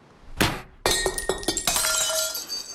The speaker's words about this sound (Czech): Rozbil si kočičku ze sádry, tu, co dává dědek jako cenu. Koukej, sypou se z ní střepy.